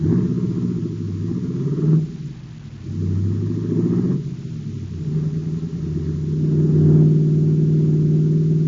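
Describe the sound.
A car engine rumbles low and steady as the car drives off, with a couple of brief dips and a slight swell in revs toward the end, no voices.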